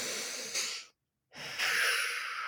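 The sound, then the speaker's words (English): Slow, deep breathing, with two long, airy, hissing breaths separated by a brief silent pause, heard alone at a soft level. “I want you to breathe in and out with me right now, slowly.”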